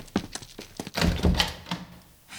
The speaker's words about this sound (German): Hier zeigte der Hausherr auf die rechte der beiden Türen. Doch noch ehe er klopfen konnte, wurde sie von innen aufgerissen.